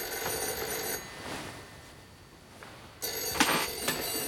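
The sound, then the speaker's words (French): An old-style telephone bell rings in two bursts of bright, harsh metallic jangling. A quieter stretch of hiss separates the bursts, and the second burst is a little louder than the first. “Dis donc, c'est le téléphone. Oui, en effet, je crois que c'est le téléphone.”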